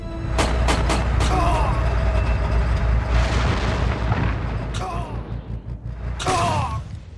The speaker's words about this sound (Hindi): अब हमें बिना रुके उन दो टैंकों पर फायर करना है। Go and send them to hell! Fire!